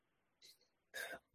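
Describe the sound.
A quiet sneeze: a soft catch of breath, then one sharp, brief burst.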